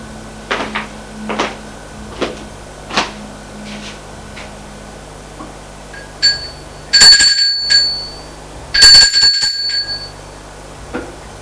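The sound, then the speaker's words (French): A doorbell rings twice at a flat door on an upper floor. Each ring is a bright, buzzy metallic tone about a second long, preceded by a few sharp clicks and knocks. “Arrivée à l'étage, va sonner à la porte de Julien.”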